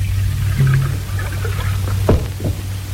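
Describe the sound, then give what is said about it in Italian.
Starch is poured into a solution during a chemistry experiment: a short liquid pour with a brief thunk near the end, heard over a steady low electrical hum. “Ricordiamoci di agitare la soluzione. Aggiungiamo amido e facciamo partire il cronometro.”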